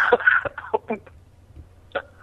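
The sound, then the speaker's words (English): A man coughs and laughs on a voicemail greeting: a cluster of rough bursts at the start, a couple of shorter ones after it, then one last burst following a quiet gap. “He's like coughing, laughing.”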